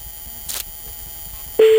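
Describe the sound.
A telephone ringback tone sounds during a prank phone call: a brief noisy burst comes first, then a loud, steady mid-pitched tone starts near the end and holds to the close.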